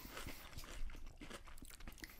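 Faint crisp crunching of vinegar potato chips being bitten and chewed, with many irregular crackling bites in quick succession.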